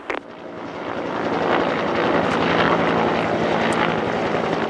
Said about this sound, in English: the airstrikes against the terrorist vehicles are simulated by the helicopter, painting them with lasers.